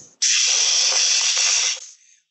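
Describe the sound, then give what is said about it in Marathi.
A pressure cooker whistles in a kitchen, one sharp burst of hissing steam that holds steady and loud for about a second and a half before cutting off abruptly. “कुकरची तिसरी शिट्टी होते बरं का”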